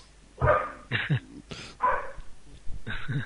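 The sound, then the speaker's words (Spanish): A dog barks a few times in short, uneven bursts with slight whimpering yips between them. No one talks over it. “Sí, sí, que estamos escuchando al perro, que supongo que quería opinar sobre la derrota de España también”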